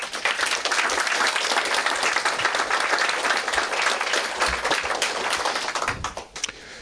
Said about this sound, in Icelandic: Ég vil byggja ykkur að klappa fyrir Kristni.